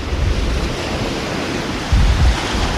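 Sea waves wash against rocks in a steady, noisy surge with low rumble and wind buffeting, swelling briefly louder near the end.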